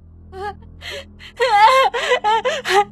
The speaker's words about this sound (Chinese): 那叫东子的男孩却哇的一声哭了